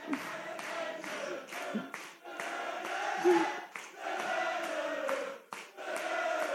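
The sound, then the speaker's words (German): Audience clapping along in rhythm at a lively German party or stage event, the steady claps running under loud, tonal group singing or chanting from the crowd. “Ja, jetzt hört mal auf zu klatschen oder habt ihr ein anderes Programm irgendwie?”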